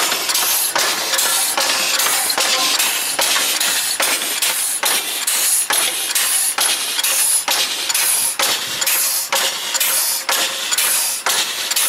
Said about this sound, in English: Oh, a bit of wheel slip there.